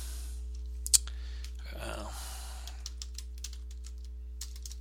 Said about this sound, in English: Oops. Sorry while I type.